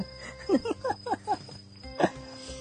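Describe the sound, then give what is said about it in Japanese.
Insects chirp outside an open window on a hot evening. A thin, continuous high trill runs throughout, with a few short, louder pulses over it. “虫の音が大きくてすいません”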